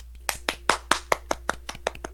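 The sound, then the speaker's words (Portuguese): Hand claps ring out in a steady, even rhythm, about ten sharp claps in quick succession, with no voices. “Nós temos agora um Twitter. Uma salva de palmas.”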